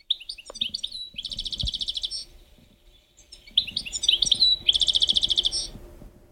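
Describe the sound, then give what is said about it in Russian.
European goldfinch song: two bright, high phrases of rapid twittering notes, each ending in a fast, buzzy trill and separated by a short pause, over faint low background sounds. “такой, ну, настоящий щегол. Да, ну, напомни, как он. Да, ну, вот так звучит.”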